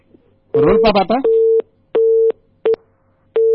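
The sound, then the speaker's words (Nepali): A telephone busy tone sounds after a caller's line from Rolpa was cut: a brief burst of speech, then steady mid-pitched beeps repeating with short gaps between them. “रोल्पादेखि कोही telephone कटेको छ, फेरि phone गर्नुहोला”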